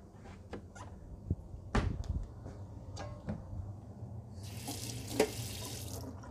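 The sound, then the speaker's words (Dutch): Running water from a kitchen tap as a knife with parsley on it is rinsed: a few soft knocks and splashes, then a steady hiss of flowing water toward the end. “Even mijn mes afspoelen, anders heb ik alle peterselie aan de boter zitten.”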